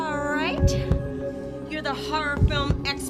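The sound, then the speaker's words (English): A heartbeat sound effect in a horror-parody scene of a teen sitcom thumps in two double beats, low and muffled, while people talk over it. “What's that? That's the sound of our beating hearts. It signifies our heightened fear and the fact that something horrible is about to walk in that door right now.”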